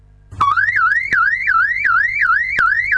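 Loud electronic alarm siren wailing continuously in a fast, repeating warble, its tone sweeping up and down in even cycles with sharp clicks marking some of the cycles.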